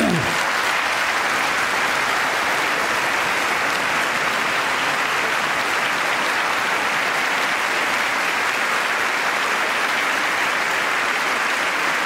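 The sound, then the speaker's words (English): Sustained applause fills a legislative chamber, a dense and even wash of many hands clapping at a steady level for the whole stretch, with no talk over it. “bipartisan applause.”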